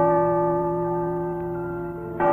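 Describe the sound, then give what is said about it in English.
A neighbouring church bell striking midnight, its deep ringing tones humming steadily on, with a fresh stroke sounding just before the end. “The chime of a neighboring church had just struck 12.”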